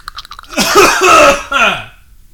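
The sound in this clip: Loud, rough coughing and throat clearing to bring up phlegm, a long rasping, voiced burst followed by a shorter one.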